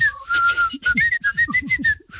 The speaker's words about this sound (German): ich habe sofort das Pfeifen, es wurde gepfiffen in dem Song